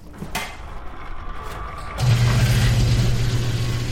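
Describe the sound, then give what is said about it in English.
A fuel pump fills a vehicle's tank with biodiesel. Partway through, a loud, steady, low mechanical hum starts suddenly and continues over a background rumble. “You can pull right in, and we just pump it right directly into our tank. So here goes. It's going to make kind of a loud noise.”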